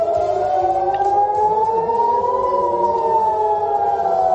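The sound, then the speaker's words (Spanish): Civil defense sirens wail across Tel Aviv, several loud continuous tones overlapping as they rise slowly, peak midway and fall again, sounding alone without voices. “Y en ciudades como Tel Aviv, el sonido de las sirenas no cesa.”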